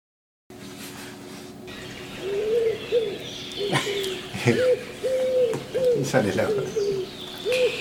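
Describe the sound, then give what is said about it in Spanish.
An eared dove (torcaza) cooing: a series of low, soft, hollow coos in short repeated phrases over a steady background hiss. “Y hoy me lo contó una torcasita. ¿Escucharon? Esa ave que andaba cantando por ahí”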